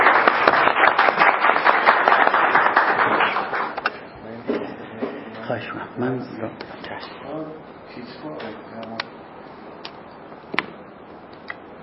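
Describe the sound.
Applause from an audience welcoming a speaker: dense clapping for about four seconds that thins out, after which a voice starts talking with a few scattered claps.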